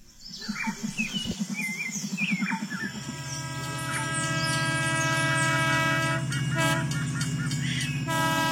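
A train runs through the jungle of southeastern Mexico: rapid rhythmic rattling and clacking at first, then a loud, steady rolling rumble with a sustained tonal hum and faint high squeals.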